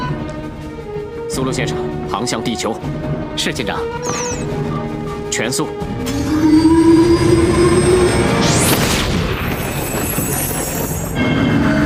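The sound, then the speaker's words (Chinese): A starship's warp engine, running despite a badly damaged warp core, swells into a loud, building rumble around the midpoint with a rising tone and a sweeping whoosh, while voices speak during the first half. “苏鲁先生，航向地球，是舰长。全速。哦，至少船又开了。”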